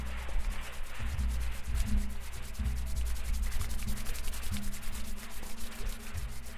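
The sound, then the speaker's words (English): Hands rub quickly together in a steady, fast back-and-forth, a continuous dry swishing friction with no voices. “Quickly rub your hands together and feel how the temperature of your skin might be changing.”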